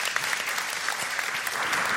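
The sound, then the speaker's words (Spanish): Audience applause for the show's producer: a brisk, dense patter of many hands clapping together, fairly loud and steady from start to finish. “Aplauso para la Colo, nuestra productora estrella. Para la Colo.”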